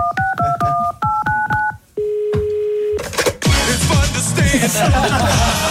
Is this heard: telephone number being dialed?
yes